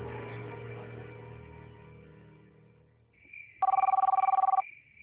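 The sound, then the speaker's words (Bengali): A telephone rings late at night: a fading tonal sound gives way to one short, rapid, trilling ring burst, fairly loud against an otherwise quiet background. “উফ, এই মাঝরাইতে আবার কেডায় phone করছে।”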